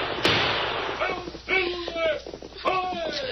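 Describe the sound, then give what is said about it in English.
A gunshot sound effect in a radio drama cracks sharply near the start, and a second, fainter crack comes later, with voices speaking between them. “Don't let them. Shoot them, Hunk. I'll show them.”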